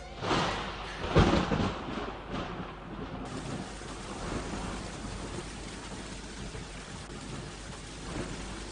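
Rain pours steadily in a Kurdish cartoon, a dense, even hiss of drops on surfaces, with a loud rumble of thunder breaking in early before the downpour carries on alone.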